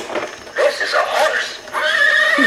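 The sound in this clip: A horse neighing: a loud, shaky, drawn-out whinny in several bursts, with voices audible over it.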